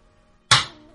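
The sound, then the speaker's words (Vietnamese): A hand slams down hard on a desk in anger: one sudden loud bang breaks a near silence, then quickly dies away. “bang một tiếng, Tấm Quốc Công cầm tinh trong tay vỗ mạnh trên án, lửa giận ngập trời.”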